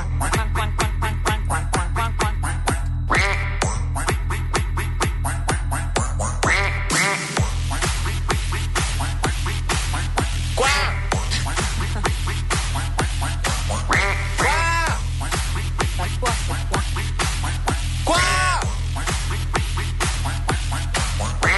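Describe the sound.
Many nasal duck-quack sound effects recur throughout over a loud, thumping rhythmic music beat, with a brief drop in the bass partway through.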